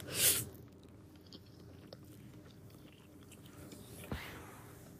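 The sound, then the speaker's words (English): Someone takes a bite of ramen and chews it. The faint, wet crunching has a sharper bite near the start and another brief crunch later, over a low, steady background. “I'm taking another bite of my ramen.”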